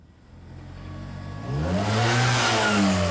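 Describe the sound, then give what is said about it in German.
A motorcycle engine revs and rides off, its steady mid-pitched drone climbing sharply about halfway through and staying loud and rising as it accelerates. “Der soll sich auf sein Motorrad setzen und losfahren.”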